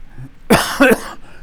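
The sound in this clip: Two harsh, loud coughs close together from a person speaking during a Bible teaching session, standing out sharply against an otherwise quiet background.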